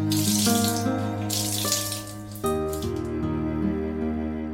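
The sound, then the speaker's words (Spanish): Water running steadily from a tap while laundry is rinsed, a continuous hissing splash with sustained musical tones beneath it. “Es nada más de desaguar la ropa”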